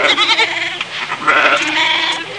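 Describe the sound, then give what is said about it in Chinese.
A goat bleats on its own in loud, nasal, wavering calls that quaver and shift in pitch, with no voices heard. “各位知道正确的答案是什么吗？是山羊，很容易的可以听出来，不是吗？是山羊嘛？”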